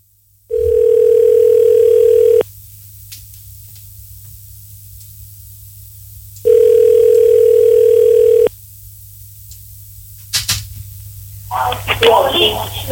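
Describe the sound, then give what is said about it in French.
Telephone line tones sound while a number is being called: two long, steady, mid-pitched tones of about two seconds each, separated by a long silent gap. Clicks and a burst of noisy crackle follow at the end. “Allez, on compose le numéro de qui on appelle ce soir?”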